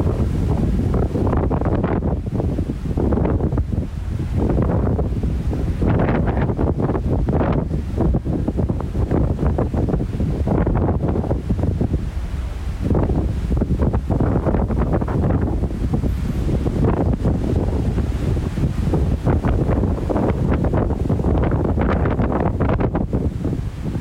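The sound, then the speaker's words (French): Strong wind in New Zealand buffets the microphone in a continuous loud roar that swells and eases in gusts. “le gros vent du jour qui nous vient aujourd'hui de la Nouvelle-Zélande”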